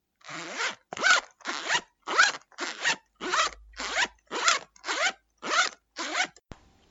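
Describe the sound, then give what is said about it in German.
A pencil case zipper pulled open and shut in many quick, rasping strokes, each a short bright zip, evenly spaced with brief pauses, heard alone. “Es war mein Mäppchen.”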